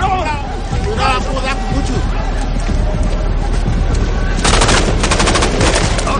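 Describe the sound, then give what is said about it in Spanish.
Soldiers fire guns at rebels running out of huts: automatic gunfire crackles amid shouting voices, building into a loud, rapid machine-gun burst of sharp shots near the end. “Water sigue disparando contra los rebeldes que salen de las chozas.”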